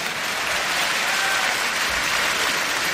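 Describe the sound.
Audience applause at a radio station's anniversary celebration: dense, even clapping from many hands, held at a steady level from start to finish.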